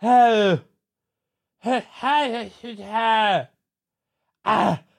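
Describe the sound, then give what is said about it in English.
An adult voice imitates a baby's first babbling: a few drawn-out, sing-song vocal syllables with wavering, falling pitch, spaced by silent pauses, ending with one short burst. “oh my God, are you babbling right now? So it was the first babble.”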